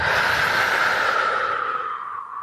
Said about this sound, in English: So take a deep breath in and breathe out.